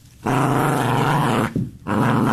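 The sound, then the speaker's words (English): A dog growls in two long, low, rumbling stretches separated by a brief pause, loud and steady throughout with no talking. “That's my dog. That's my dog.”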